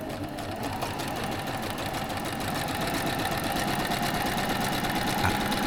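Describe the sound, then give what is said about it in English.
A sewing machine stitches stripes onto a T-shirt, a steady, rapid mechanical whirr and clatter running continuously and evenly, with no voices. “What's that? What's going on? Oh, yeah, I'm just sewing my National Stripes into my T-shirt heading out to Aldi.”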